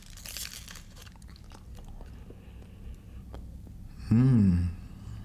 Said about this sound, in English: Candy canes. Chocolate. Yeah, you should try it on camera. Let's see. Taste test.